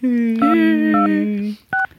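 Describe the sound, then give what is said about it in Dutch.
Telephone tones sound as a call is placed: a steady, low dial tone is overlaid by three short, higher keypad beeps, the last coming just after the dial tone stops. “Ja, ik ga er bellen. Ik vind de kiestoon echt, dat is mijn lievelingstoon.”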